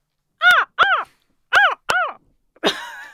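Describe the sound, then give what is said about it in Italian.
A human voice imitates a barking seal with five hoarse, squawking calls: two quick pairs followed by a longer, rasping final bark. The calls are sharp, mid-pitched and rather loud, with silence between them. “nel verso della foca. La foca che latra.”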